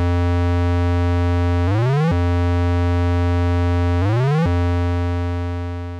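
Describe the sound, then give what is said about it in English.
A synthesizer loop with its pitch-bend depth raised to 20 holds a loud, bright, buzzy harmonic tone. Twice the pitch bends sharply upward and then snaps back to the steady note, and the tone fades slightly at the end. “So you can hear that how long it takes the loop hasn't changed, but the pitch bend at the end goes further up. So let's listen again with the depth increased to 20.”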